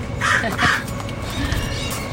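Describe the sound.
Two harsh, raspy calls come from a pet bird in quick succession, loud and coarse over steady background noise.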